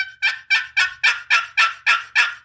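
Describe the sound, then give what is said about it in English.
Raspy yelps from a box turkey call played after it is flipped over come in a steady run of evenly spaced, loud strokes, each sharp and bright, with no talking. “has a little different kind of tone to it mm-hmm. when you flip it over. Mm-hmm. It's you know, everything does something with a turkey call, whether it be a pot or a box.”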